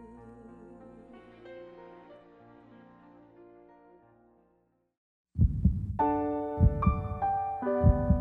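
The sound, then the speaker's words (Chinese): Heartbeat: deep, low thumps in a steady slow pulse, a few in number, beginning after a short silence and sounding over soft tonal music. The opening seconds hold only quieter music that fades out. “心跳是我们生命的节奏”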